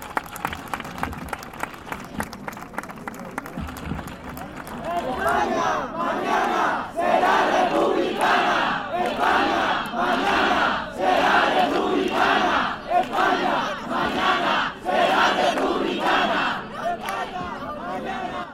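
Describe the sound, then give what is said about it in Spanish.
A crowd at a popular assembly on a monarchy referendum bursts into loud applause and cheering after a quieter opening, the clapping and shouts pulsing in a steady rhythm for over ten seconds. “¡Aplausos!”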